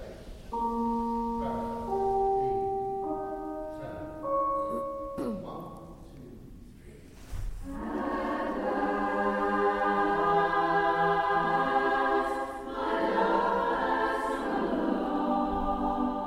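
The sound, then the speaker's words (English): A new women's barbershop chorus rehearses at a church centre in Burgess Hill, singing held chords in close harmony that shift step by step, then swell into a fuller, louder passage of sustained blended voices. “What you're hearing is a rehearsal for a brand new women's barbershop chorus.”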